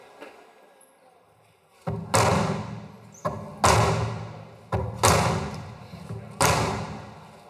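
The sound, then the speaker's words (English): Hammer blows striking a mural to mimic gunshots: several loud, sharp, booming hits with a short ringing decay. They come at irregular intervals, mostly in close pairs. “He started to strike the mural with the hammer, mimicking the sounds of gunshots.”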